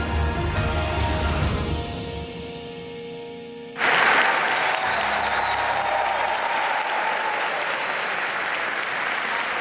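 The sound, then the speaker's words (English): Applause from journalists giving Pope Leo XIV a standing ovation at a papal audience, early in his pontificate. The clapping bursts in abruptly and continues as a loud, dense, sustained wash of many hands. “An enthusiastic standing ovation for Pope Leo XIV from journalists, no less, during a papal audience just days into his pontificate.”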